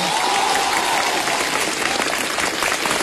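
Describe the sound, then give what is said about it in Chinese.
Audience applause at a live stage show, loud and sustained clapping from a large crowd that keeps a dense, steady texture for the whole stretch. “反正鼓掌的都发财，不鼓掌的什么都没有啊。”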